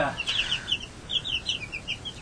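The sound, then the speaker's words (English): Hens from a small flock of eight cluck in a run of short, high, chirpy notes at an uneven pace, fairly soft over a steady background hiss. “8 chickens. And they'll each lay an egg a day”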